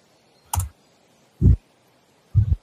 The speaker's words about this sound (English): Yeah, type out the number.